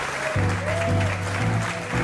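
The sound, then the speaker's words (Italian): Audience applause greeting Fabrizio Frizzi, the voice behind Toy Story, a continuous, fairly loud clatter of many hands over low sustained tones that shift in steps. “Il grandissimo Fabrizio Frizzi è qui. Grande. Facciamo un applauso.”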